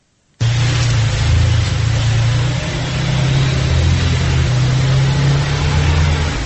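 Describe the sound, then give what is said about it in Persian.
Taxi wheels spin in snow as the car sits stuck in a Dushanbe street while passengers push it. A low, droning engine and a broad rushing hiss start abruptly and hold steady throughout. “این صدای لغزش چرخ تاکسی است که در کوچه تونسی شهر دوشنبه درمانده است و چند نفر مسافر آن را تله میکنند.”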